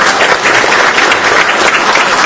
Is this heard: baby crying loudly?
no